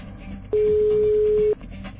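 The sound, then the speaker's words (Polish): A telephone ringing tone plays while a call to a listener connects: one steady, even tone lasting about a second, standing out clearly above a continuous murmur of low background sound. “No i zobaczymy, czy się uda do kogoś dodzwonić. Długie wołanie, no ale może ktoś musi dobiec do telefonu.”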